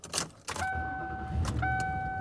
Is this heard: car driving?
yes